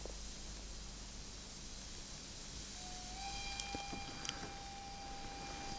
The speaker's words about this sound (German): Hörst du den Bahnhof?